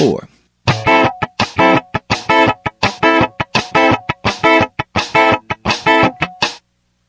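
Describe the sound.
Muffled D9 chord stabs land on the second 16th note of each beat group, giving a steady run of many short, clipped, percussive hits that are loud and heard alone.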